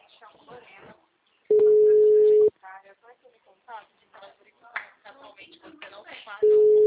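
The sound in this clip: Telephone tones sound while someone calls a person: a loud, steady tone of about one second, then voices talking, then the same tone starting again.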